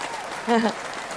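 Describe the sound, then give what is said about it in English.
Audience applause welcoming a guest onto a show, a steady rush of clapping throughout with a brief voice rising over it midway. “So please put your hands together”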